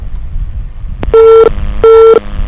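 A telephone tone after a dropped phone-in call: two loud, steady beeps of even pitch, each short, following a sharp click over low background hiss.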